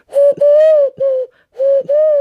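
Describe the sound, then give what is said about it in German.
A person imitates a dove's normal cooing with a hummed, voice-like coo: a phrase of three notes, a short pause, then two more, all at a similar mid pitch, clear and fairly loud with nothing else heard. “Das ist ja so das normale Taubenlied.”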